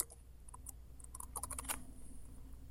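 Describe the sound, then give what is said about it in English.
Faint clatter of fingers typing an email address on a computer keyboard, quick light keystrokes clustered in a rapid burst mid-clip over soft background hiss. “I'm gonna enter my email address here. So if folks want to get in touch with me, if there's some problem with this data set, they can come check with me. And then I'm going to add a tag. Let's call this like earthquakes.”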